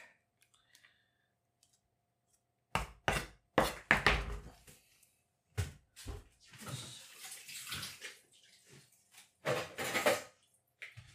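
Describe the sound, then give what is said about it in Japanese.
A knife finely chops vegetables and onion for fried rice, in bursts of quick, sharp chops with short pauses between them. “みじん切りにした野菜はね、ちょっとボウルに僕は避けておきます。玉ねぎがみじん切り終わりました。”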